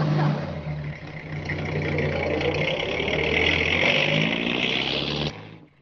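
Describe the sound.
Car engine as the vehicle drives away, a steady mid-pitched rumble with a humming tone that holds for about five seconds before cutting off sharply and fading out.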